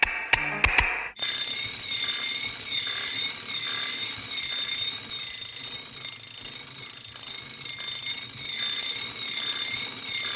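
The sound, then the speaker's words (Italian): Alarm clocks ring in a steady, high, shimmering tone that wavers in a slow pulse, part of a rhythmic noise piece built from alarm clocks, hammers, bolts, thin steel plates and other mechanical objects. A few sharp clicks come just before the ringing starts. “Sveglia il Breakfast Club tra sveglie, martelli, bulloni, piccole lamine di acciaio, altri oggetti meccanicamente costruiti per mantenere un noise ritmico”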